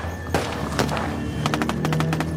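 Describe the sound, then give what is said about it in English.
Gunfire from AK-47 rifles during an attack on fleeing cars: a few sharp, separate cracks, then a rapid burst of many loud shots in quick succession. “Okay, that's gunfire. Okay, we've just come under attack.”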